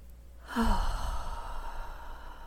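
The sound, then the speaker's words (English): A deep breath is taken during a guided meditation, heard mainly as one long, soft, breathy exhale that starts suddenly and slowly trails away, quiet and alone. “So I invite you to join me in taking a deep breath at this time.”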